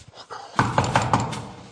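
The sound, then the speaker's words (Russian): Knocking on a door: four firm raps in a quick, even rhythm, fairly loud against a low background hum. “То звонят, то стучат.”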